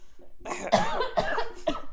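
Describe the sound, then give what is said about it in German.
Harsh coughing from one person: a few rough, throaty bursts in quick succession, loud and alone, with no talk in between. “Oh, warte, ich muss husten.”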